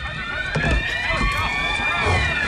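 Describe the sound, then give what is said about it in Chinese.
People run down the stairs in a rush, with rapid irregular thudding footsteps and voices over them, against a steady tonal background. “什么声音？老公开门看看啊！ 哟，这人们都在往楼下跑啊！”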